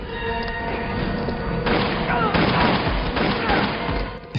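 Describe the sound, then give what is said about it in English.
Video game weapon shots slam into a ship's shields, a series of booming impacts and crackling bursts over a dense, continuous roar of game effects. “those four or five shots took 60% of the shield power down.”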